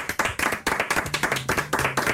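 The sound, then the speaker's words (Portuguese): Audience applause of many quick, uneven hand claps, moderately loud and continuous throughout. “É sério que aplaudimos isto?”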